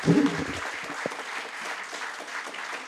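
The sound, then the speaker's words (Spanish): Audience applause for a guest, a literature teacher: steady, dense clapping at moderate level that carries on evenly, with a brief voice at the very start. “Bueno, fuerte el aplauso para Hernán Martiñone. Gran profesor de letras.”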